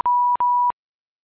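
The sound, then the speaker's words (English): Phone beeps on muting: two identical steady mid-pitched electronic tones of equal length, separated by a short gap and followed by silence. “I'm gonna mute my phone.”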